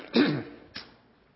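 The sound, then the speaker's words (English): Someone clears their throat twice: first a rough, rasping burst, then after a short pause a briefer and fainter one, with near silence afterwards. “I apologize for any throat clearing that might happen.”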